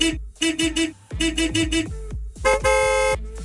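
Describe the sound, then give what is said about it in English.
Car horns tooting together in a coordinated group toot: a few short, bright honks in quick bursts, then a longer sustained blare of layered horns. “even if it's before the long weekend group toot, you might be unknowingly participating in a warm-up toot.”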